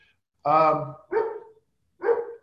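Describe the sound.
A dog barks three times during an online meeting: a long first bark, then two shorter ones, spaced apart with silence between them.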